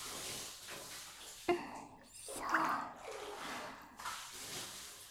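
Hot water poured over a body in a bath, with a few bursts of splashing and rushing water separated by short quiet gaps and soft breathy sounds.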